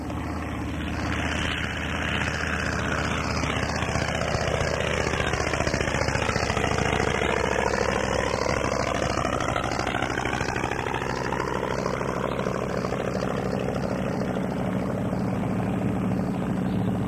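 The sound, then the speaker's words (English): Engine drone of a PT-23 airplane coming up the runway, a sustained, loud propeller hum with a slowly shifting, swirling tone throughout. “Walk overhead with a PT-23 coming up the runway.”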